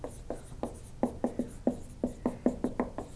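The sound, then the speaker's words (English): A lecturer writes on a board during a live class, the pen or chalk making many short, scratchy strokes in an irregular rhythm, each one a crisp tap-and-drag, fairly quiet and without talk. “When you look at all of these things, you get a whole bunch of things that come out. And I'm just going to write a couple of them here.”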